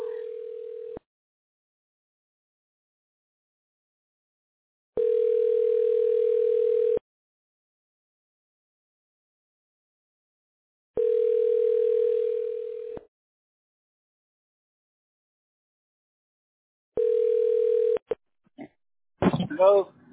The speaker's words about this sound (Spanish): Ahí está la llamada.